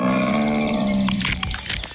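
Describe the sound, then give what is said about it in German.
A large brown bear at Bärenwald Müritz cracks nuts. A low, rumbling vocal tone comes first, then a run of sharp, irregular cracks and crunches. “Was Sie jetzt hören, aber leider nicht sehen, ist ein großer Braunbär, der genüsslich Nüsse knackt.”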